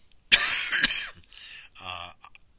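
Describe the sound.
A harsh, explosive cough bursts out alone, then trails into rougher throat-clearing rasps and a few shorter raspy hacks, with no talking.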